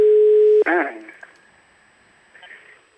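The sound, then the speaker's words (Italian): A telephone rings unanswered: a steady, loud tone is heard from the caller's side and then cuts off abruptly as a voice begins speaking. “Squilla in vano. Sì, squilla, starà trattando”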